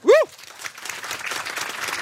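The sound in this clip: Audience applause greets a guest being welcomed on stage: a brief voiced sound opens, then many hands clap in a steady, dense patter at moderate loudness to the end.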